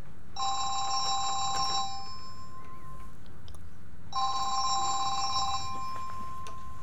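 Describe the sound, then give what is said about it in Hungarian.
A telephone rings as a listener calls in to a radio show: two separate bursts of bright, electronic trilling ring, each lasting about a second and a half, divided by a short quiet gap. “Következő... Hoppá, hopp, van egy betelefonálunk.”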